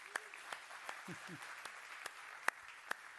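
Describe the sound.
Faint, scattered handclaps as an audience welcomes people onto a stage. They come as about a dozen sharp isolated claps spread unevenly over a few seconds rather than a full ovation, with a brief murmur of voices in the middle.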